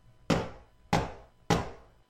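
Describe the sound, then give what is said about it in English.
Axes chopping wood: three sharp, loud chops, evenly spaced, each with a quick woody thud that dies away before the next strike. “No one was holding the handles. The axes chopped all by themselves.”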